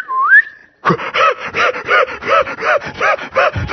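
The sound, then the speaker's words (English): A short whistle that dips and then rises in pitch, followed by about a dozen loud, even rasping strokes like a saw working through wood. “So whenever we heard a whistle, whatever kind of whistle it was,”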